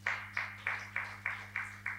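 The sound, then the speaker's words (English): Audience clapping in unison: seven evenly spaced, faint claps in a steady rhythm over a low constant hum. “Let's clap for him.”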